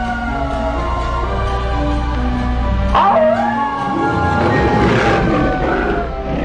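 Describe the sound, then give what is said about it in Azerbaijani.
A grey wolf gives one wavering, high-pitched howl midway through, rising and bending in pitch, set against loud, continuous music with steady sustained tones. “Boz canavar başladı ulamağa. Canavar uladı başın buladı.”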